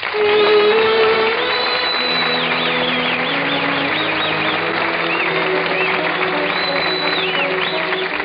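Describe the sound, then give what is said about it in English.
Audience cheering and applauding at a tribute to an American music figure, a dense continuous roar of clapping mixed with shouting and whooping voices, loud and unbroken throughout. “And now, ladies and gentlemen, several hip hip hoorays and assorted cheers for the Dean of Modern American Music, Mr. Paul Wycliffe.”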